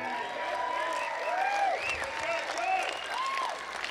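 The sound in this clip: Audience applause for a steel guitar player at a live show on stage: steady, moderately quiet clapping that continues throughout, with faint gliding tones over it.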